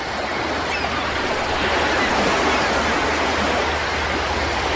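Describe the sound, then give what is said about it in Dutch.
Sea waves make a continuous, loud roar of surf, a dense steady wash of water noise with no distinct breaks or voices. “Luister even mee. Dit is het geluid van de zee.”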